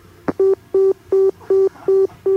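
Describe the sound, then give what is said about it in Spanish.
A telephone line after a caller hangs up on a radio call-in show: a click, then six even busy-signal beeps at a steady mid pitch with regular gaps, loud and alone. “Este ha sido el primer oyente que ha tenido el valor de colgarnos el teléfono.”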